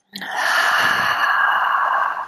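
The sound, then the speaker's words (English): Deep ujjayi breathing, a whisper-like breath drawn through a narrowed throat: one long, airy, steady hiss that swells quickly and holds for about two seconds, loud and alone. “It's like doing this deep ujjayi breathing, and that changes how everything functions”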